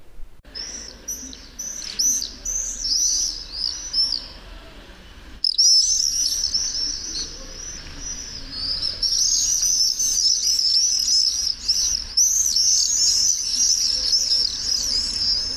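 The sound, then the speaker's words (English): Common swifts scream with many shrill, high-pitched calls in rapid trilling bursts, repeated almost without pause and growing denser and steadier in the second half. “common swifts sound like this.”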